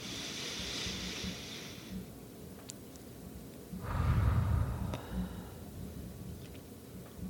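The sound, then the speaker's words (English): A slow, deep breath drawn in, heard as a soft airy rush that swells for about a second against a faint steady hiss, after an earlier quieter breathy noise. “let's take one more slow, deep breath in, really feeling that breath in the body wherever you notice it the most”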